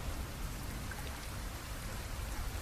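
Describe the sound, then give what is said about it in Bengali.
Heavy rain pours down in a deep low-pressure storm. It makes a dense, steady hiss that carries on without a break, and no voices are heard. “School থেকে বেরোতে না বেরোতেই সেই যে বৃষ্টি শুরু হলো থামার নামই নেই”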